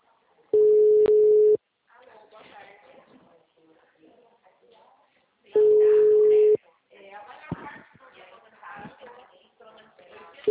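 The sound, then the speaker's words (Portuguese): Telephone ringback tone from an outgoing call, two long steady beeps about a second each, spaced roughly five seconds apart, with a third starting at the very end; people talk between the tones. “Eu vou ligar para ela. Tô ligando para ela.”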